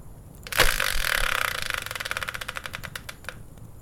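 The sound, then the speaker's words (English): A subject randomizer wheel is spun. A sharp whoosh starts it, then comes a rapid run of ratcheting clicks that steadily slow and spread apart before stopping, with no voices. “So let's bring in the subject randomizer, give it a spin, and find out what today's topic will be.”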